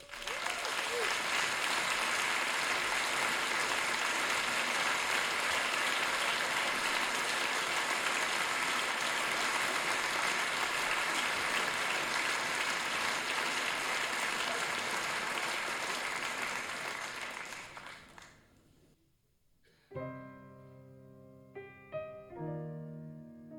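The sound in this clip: An audience gives long, loud applause to welcome a young musician from Munich. The clapping stays full for about fifteen seconds, thins and fades out, and then a few distinct musical notes begin.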